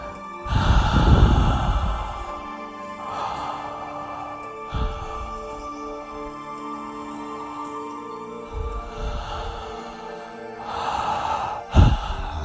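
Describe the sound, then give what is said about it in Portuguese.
Slow, deep breaths drawn in and let out through the mouth during a guided breathing exercise, with a few airy, sigh-like exhales spaced several seconds apart, soft and alone with no talking. “Inspira e expira, inala e exala um pouco mais por la boca.”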